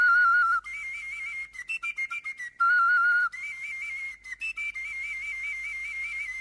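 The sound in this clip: A pipe is blown while its finger holes are covered and uncovered, producing a clear whistling tone that steps between several pitches. Long held notes alternate with runs of short, choppy notes, with no voices.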